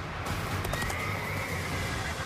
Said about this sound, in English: Here I am riding down the highway. My horse nearly fell to his knees.